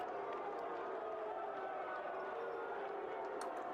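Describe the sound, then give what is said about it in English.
A wrestling crowd boos at a 1995 ECW event. The faint, sustained crowd noise holds steady throughout. “Crowd's booing. Looks like they want more action.”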